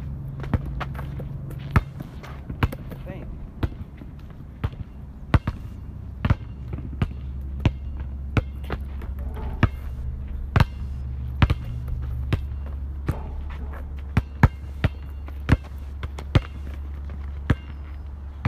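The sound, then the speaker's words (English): Basketball dribbling during a crossover drill, with many sharp, fairly regular bounces of the ball hitting the floor one after another over a low, steady hum. “Couple more dribbles and crossovers and we'll be done.”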